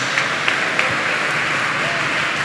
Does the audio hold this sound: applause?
yes